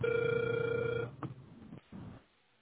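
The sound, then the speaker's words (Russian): Telephone ringing tone during dialing, thin and band-limited like a phone line: one steady mid-pitched tone for about a second, then it stops, leaving faint scattered line noise. “Продолжаю дозвон.”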